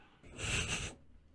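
A woman gives a single soft, muffled sneeze, brief and faint, with no talking around it.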